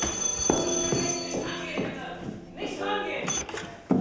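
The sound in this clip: An old telephone bell ringing in a film scene, a steady metallic ring with regular clicking pulses about every half second, mixed with other background sound.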